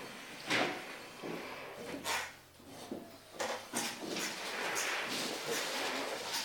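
Chairs are pushed back across the floor, making several irregular scrapes and wooden knocks of varying loudness, with bursts that cluster and then overlap into a longer rough scraping stretch.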